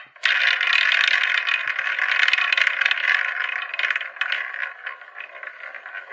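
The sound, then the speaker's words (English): A prize wheel spins in a Christmas quiz round. A rapid, bright rattling tick starts abruptly and runs on without a break, easing off slightly toward the end. “So to find out which one, let's spin the wheel.”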